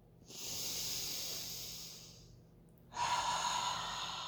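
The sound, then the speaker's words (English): Deep breathing with air released out through the mouth: two long, airy breaths with a short pause between, the second louder and harsher, with no talk. “We breathe deeply, releasing out our mouth as we go.”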